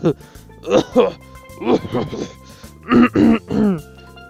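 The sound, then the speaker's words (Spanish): A voice imitates the raspy throat clearing of someone sick with flu. It comes as a few short, gravelly vocal bursts with brief pauses between them. “tenía tos porque luego tosía. Y entonces luego carraspeaba,”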